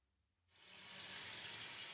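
Running water rinses shampoo from short hair after washing, starting abruptly from near silence and quickly swelling into a steady, hissing flow that continues to the end.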